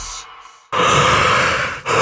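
A yawn, heard as a loud, breathy, noisy exhale sustained for about a second, set off after a quieter breathy stretch and briefly dipping before it swells again.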